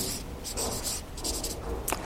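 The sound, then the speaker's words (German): Words are written by hand into a drawn speech bubble, with faint, scratchy strokes in quick, uneven bursts. “Und jetzt mache ich aus diesem Gedanken mal eine Sprechblase. und schreibt in diese Sprechblase rein Worte Jesu.”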